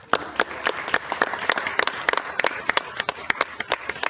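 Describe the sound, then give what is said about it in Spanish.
Audience applause at a talk during the 2019 FLISoL event at UNAM, a brief burst of crisp, brisk hand clapping from a group that stays fairly even for about four seconds. “ya nada más para finalizar, un aplauso a Wolf.”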